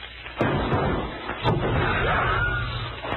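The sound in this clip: A revolver gunshot, the sixth and final round, cracks out loud and breaks into a rough, sustained burst of noise that lingers for a couple of seconds.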